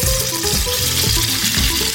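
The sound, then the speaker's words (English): Sizzling of an egg-battered, panko-breaded sandwich frying in hot oil: a loud, steady hiss dense with fine crackles, with no talking. “So you take the sandwich and you dip it into the prepared egg batter, roll it in panko breadcrumbs, and then immediately bring it to the hot oil.”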